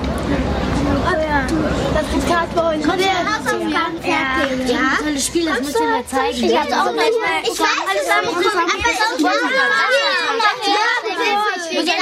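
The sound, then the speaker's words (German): Many children play noisily at a children's hour gathering, their overlapping high voices chattering, calling and shrieking in a constant lively babble with no quiet gaps. “Hallo Kinder, macht doch nicht solchen Krach, da werden ja alle Mäuse wach.”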